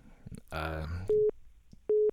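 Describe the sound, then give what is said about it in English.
A telephone signals an incoming call on a radio call-in show with two short, steady mid-pitched electronic beeps, spaced under a second apart, after a brief burst of voice. “We've got an incoming call here. Hold on. Stay on the line for a second, please.”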